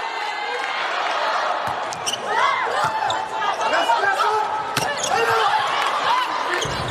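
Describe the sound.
Volleyball thumps as a Czech substitute middle blocker serves during a match. A few sharp ball hits stand out over constant crowd noise and chatter.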